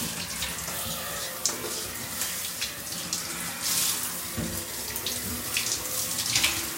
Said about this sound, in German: Jetzt natürlich die Haare waschen.